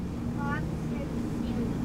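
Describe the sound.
A motorboat engine drones steadily as the boat moves over water, a low continuous hum with people talking over it.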